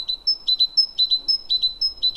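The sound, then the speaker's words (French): Great tit song, a high, bright two-note phrase repeated many times in a quick, steady rhythm, clear and alone against a quiet background. “La mésange charbonnière est très loquace et marque son territoire d'un Cicilou, Cicilou, qui lui vaut un de ses surnoms dans le sud-ouest.”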